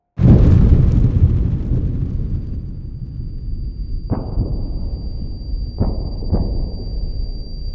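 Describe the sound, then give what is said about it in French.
Explosion effects for a planet's core blowing apart with lava bursting from craters: a loud opening blast trailing into a long rumble, then three sharper bursts later over a continuous low roar. “La lave jaillit par des cratères. Le noyau explose.”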